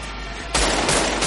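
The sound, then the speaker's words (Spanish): Gunfire erupts in a 1995 crime thriller as a man opens fire on his pursuers: a loud, harsh burst begins about midway and continues as sustained, dense shots to the end. “Michael coge a la niña y abre fuego contra ellos.”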